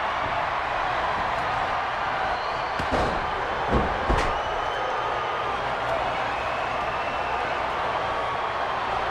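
A scoop slam sends a huge wrestler crashing onto the mat, giving a few heavy thuds over the constant loud roar of an arena crowd.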